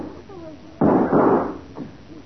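Gunshots crack during a graveyard shootout: a few sharp, loud reports, the first two close together and a fainter one after, each standing out against a quiet background.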